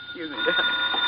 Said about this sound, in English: You working, oh. Yeah, well, you better answer the phone.